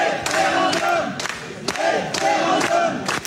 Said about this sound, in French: Dans cette vidéo, enregistrée dans une salle municipale le 19 août dernier, vous entendez 350 habitants de Rantigny, dans l'Oise, crier référendum face aux promoteurs un peu ébahis d'un centre de données